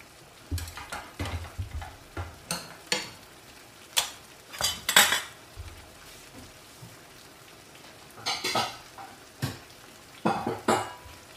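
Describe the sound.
A metal spoon clinks against a bowl and dishes while a cooked tomato dish is served after the stove is turned off: many sharp, irregular clinks and scrapes that come in bursts separated by short pauses.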